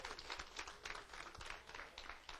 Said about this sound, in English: Let's give God a hand clap of praise this morning.